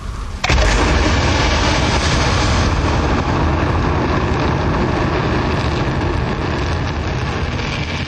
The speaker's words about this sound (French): il va être placé en orbite par une fusée proton d'une poussée de plus de 1000 tonnes. On a intérêt à ne pas être à proximité lorsqu'on allume les moteurs.